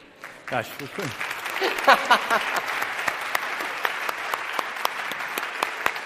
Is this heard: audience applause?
yes